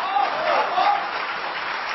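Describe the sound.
Audience applause at a stage performance: a dense, steady wash of clapping that holds at an even level for the whole clip, with a voice faintly heard beneath it.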